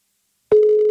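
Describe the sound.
A telephone ringback tone plays while a caller waits for an answer: a brief silence, then a single steady electronic tone that holds unbroken to the end.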